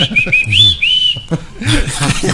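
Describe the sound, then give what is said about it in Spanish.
A person whistles briefly, one clear, high tone that holds and shifts slightly in pitch, followed by a burst of broader, noisier sound. “¿por qué le chiflas?”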